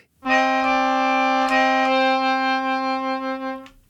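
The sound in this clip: A melodica plays a single sustained root note in C, a bright, reedy tone held steadily for several seconds before stopping.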